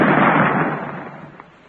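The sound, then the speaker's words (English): An explosive charge goes off after a lit fuse, a single heavy blast that bursts at once and rumbles away over nearly two seconds. “The fuse is lighted. Maybe this time we'll do it. Well, if it don't, we ain't going to let you fire it no more.”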